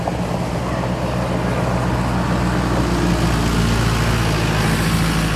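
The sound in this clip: A vehicle engine runs at a steady idle on a meadow, with soot flakes falling from the exhaust. The low, even rumble holds an unchanging level throughout, with no voices.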